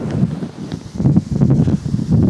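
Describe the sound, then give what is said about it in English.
Wind buffets a microphone outdoors beside a river, producing a low, boomy rumble that surges and drops in uneven gusts throughout, with no talking. “I'm trying to talk past the wind.”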